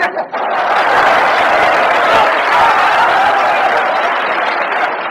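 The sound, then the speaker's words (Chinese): Loud audience applause during a stage comedy performance, a thick, steady roar of clapping that swells after a brief dip at the very start and carries on to the end. “从观众的掌声就可以看得出来，对你寄予极大的希望。”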